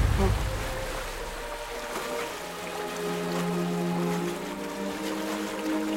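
Raging sea waves at a shipwreck: a continuous, turbulent roar of surging water, steady and dense throughout, with low sustained tones beneath.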